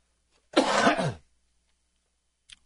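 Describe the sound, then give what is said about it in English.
A single rough, gravelly throat clearing lasts under a second from someone with a tickle in the throat, followed by silence and one faint click. “Sorry, I had a tickle in my throat.”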